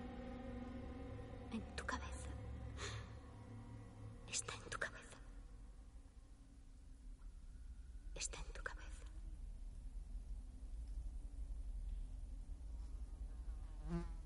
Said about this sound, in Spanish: se fija en un mosquito que se posa sobre un objeto que está en el suelo.